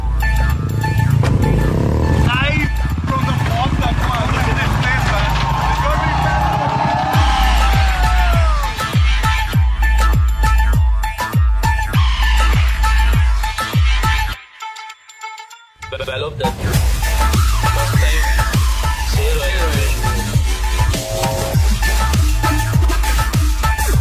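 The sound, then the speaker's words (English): Royal Enfield motorcycles roar around a well of death, engines droning loudly and continuously with throbbing revs and a brief dropout midway, voices mixed in. “Bullet, royal Enfield. इसका नाम जो रखा ना मौत का कुआं, ये हकीकत है.”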